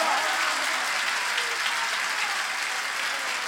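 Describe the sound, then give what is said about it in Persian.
An audience claps at a religious gathering: dense, even applause from many hands, sustained at a steady level throughout without pause. “تو دست بزن قربونت برم، اگه این صدا رو زیاد کنم صدا خودم هم نمیشنوم.”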